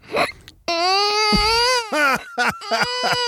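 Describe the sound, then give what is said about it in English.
A man's voice imitates a crying baby: wavering, high-pitched wails broken by hiccup-like catches and short sobbing bursts, loud and alone. “I have this kind of weird skill where I can mimic the sound of a crying baby.”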